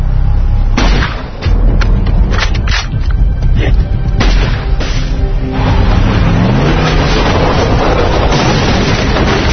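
A sniper rifle shot rings out within a loud, dense battle mix: a few sharp, booming cracks stand out over a continuous low roar and rumble.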